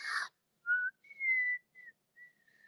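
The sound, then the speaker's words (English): A person lying down whistles a few clear, mid-pitched notes of varying length with short gaps between them, after a brief noisy breathy burst at the start; no talking. “I'm losing it. I whistle better when I'm laying down.”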